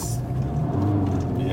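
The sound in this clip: Engine drone from a 2014 Skoda Octavia wagon accelerating gently at quarter throttle with four people aboard. A low, steady rumble runs throughout, with voices talking over it.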